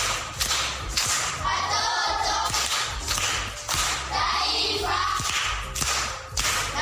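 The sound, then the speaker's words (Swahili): A group claps for a pupil at a primary school proverb-recitation session. The clapping is dense, loud and uneven, with sharp slaps and thumps, and it runs steadily for about seven seconds with no talking. “Makofi kwa shangazi.”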